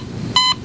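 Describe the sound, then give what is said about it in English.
Hospital equipment beeping: a single short, high-pitched electronic beep, clean and tonal, rising above a faint low background hum. “That's a noise of a hospital.”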